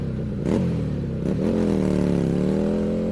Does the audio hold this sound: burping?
no

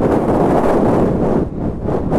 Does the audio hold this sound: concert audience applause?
no

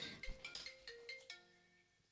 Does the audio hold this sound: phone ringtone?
yes

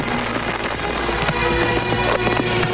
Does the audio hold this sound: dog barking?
no

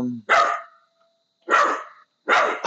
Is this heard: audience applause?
no

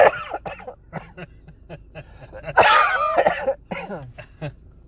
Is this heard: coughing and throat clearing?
yes

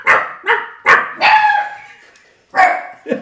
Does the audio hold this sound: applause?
no

